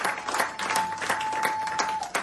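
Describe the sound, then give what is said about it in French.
Church audience applauding to welcome a newcomer: lively, rhythmic clapping throughout, with a thin steady tone sustained underneath. “Est-ce qu'on peut l'encourager? Est-ce qu'on peut l'acclamer pour nous?”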